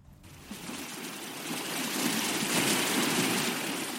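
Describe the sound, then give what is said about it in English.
A healthy coral reef crackles through an underwater microphone, a dense, steady fizz like static or frying bacon that swells slightly louder partway through. “When we listen with a special underwater microphone, we hear all sorts of weird and wonderful noises on a healthy reef. So first you'll hear this sort of background crackle. It sounds a bit like radio static or like bacon frying in a pan.”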